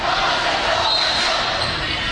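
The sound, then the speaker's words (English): Crowd cheering at a Grand Forks Red River volleyball match, a continuous, broad wash of voices and noise that stays steadily loud without distinct bursts. “Got the crowds getting into it again, which is always good.”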